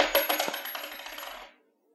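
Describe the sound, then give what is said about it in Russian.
A coin dropped as a donation clinks and rattles, bouncing and spinning in quick, diminishing taps for about a second and a half before going silent. “Вот вам монета. Я делаю первый взнос.”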